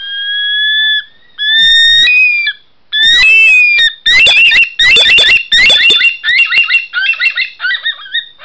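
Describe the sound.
Eerie wailing calls of a bush thick-knee (bush stone-curlew) at night: loud, drawn-out whistles that break into a fast run of shorter, choppy notes, which gradually soften.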